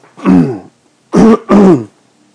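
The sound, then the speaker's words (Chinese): Someone with a slight cough clears their throat three times, one rough burst followed after a pause by two quick, loud ones in succession, with no talk between them. “抱歉，有一点点咳嗽啊”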